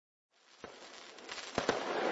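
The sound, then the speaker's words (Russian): Fireworks exploding over a valley: a crackling, hissing wash rises out of silence and keeps building, broken by a few sharp bangs. “Салюты и фейерверки над долиной продолжали взрываться еще 3 дня.”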